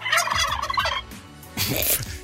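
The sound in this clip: Turkey gobbling in two loud, rattling bursts separated by a short quieter gap, with no voices.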